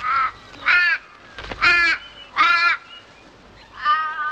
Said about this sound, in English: As birds fly overhead